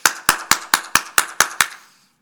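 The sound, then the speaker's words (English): Eight sharp hand claps at a closed house gate to call someone, struck alone in a quick, even rhythm, each a crisp, bright smack, with the last one ringing out into silence. “So we don't go door knocking. We go gate clapping. So you get to the gate and you go,”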